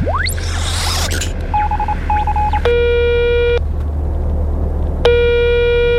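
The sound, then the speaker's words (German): Telephone dialing tones as a call is placed: a quick run of short keypad beeps, then two long, steady ringing tones, all over a constant low hum. “Okay, warte mal, ich rufe mal Ava an.”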